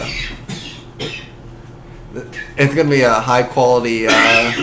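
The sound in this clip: A man coughs a few times in short, rough bursts during a sports discussion, and people then talk over the last moments.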